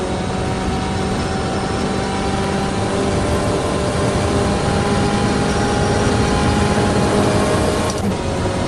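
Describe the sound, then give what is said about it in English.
Twin-turbo V8 of a big BMW M8 at speed on a track, crossing the start-finish line. A loud, steady, high-revving drone with even harmonic tones holds throughout and dips briefly near the end. “More twin turbo V8 goodness there out of the big BMW M8 as we cross the start finish line.”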